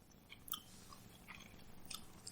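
Someone chews young vegetables while tasting them, producing faint, crisp crunches and moist chewing noises in a few short bursts.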